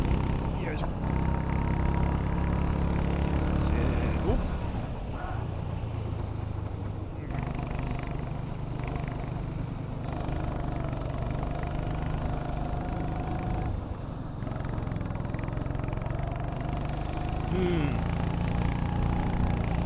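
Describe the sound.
A racing kart engine running on a track during a practice lap, giving a continuous loud buzzing drone whose pitch shifts up and down as the kart speeds up and slows.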